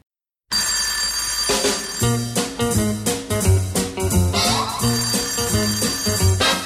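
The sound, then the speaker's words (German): A telephone rings loudly and without pause, bright, steady ringing tones layered over a repeating pattern of lower notes, with no one talking. “Schon wieder geht das Telefon.”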